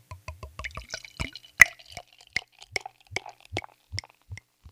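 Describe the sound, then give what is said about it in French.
Foamy bottled drink poured into a glass gives a loose run of small drips and plops. The sounds are irregular and fairly faint, and no voices are heard. “Je ne sais pas si vous allez l'entendre se faire verser dans mon verre.”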